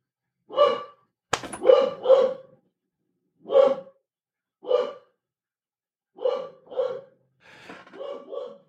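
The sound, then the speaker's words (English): A dog barks in a series of short, sharp barks. The barks come singly and in quick pairs, with pauses of silence between them. “since the dog is barking”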